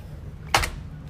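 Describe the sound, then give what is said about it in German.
A door opening, a single short latch clunk with a brief sharp burst against a quiet background hum, alone without voices. “Okay, die Tür geht auf, also muss sicher sein.”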